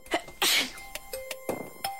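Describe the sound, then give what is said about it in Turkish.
A single human sneeze, a sudden loud burst of breath near the start, followed by fainter clicks and scattered small noises. “Hapşırırken gözlerin kapanması beynin otomatik olarak verdiği bir tepkidir.”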